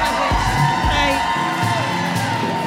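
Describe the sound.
Loud audience cheering, whooping and yelling for a guest being introduced on a talk show, forming a dense, continuous roar with sharp high whoops throughout.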